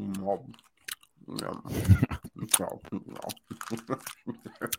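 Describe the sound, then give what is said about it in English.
A toffee candy's wrapper is unwrapped right against the microphone for a Halloween ASMR session, giving many irregular crinkling crackles and crunchy clicks mixed with close mouth sounds. “Let me unwrap my toffee candy. And then get real close to the microphone, and we'll make this a Halloween ASMR episode.”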